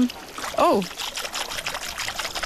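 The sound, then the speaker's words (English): Fingers splash and swish in sea water beside a kayak, making a soft, continuous trickling and dribbling sound, with a voice briefly heard early on. “If you put your fingers in the water... Just splash them around.”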